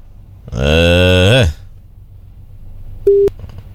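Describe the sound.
A telephone line tone on a caller's line into a radio station sounds as one brief, steady beep. It follows a louder, buzzy harmonic note.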